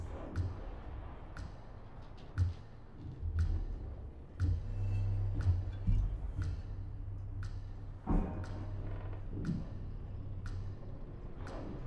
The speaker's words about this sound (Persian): اون صدای تیک تاک چیه؟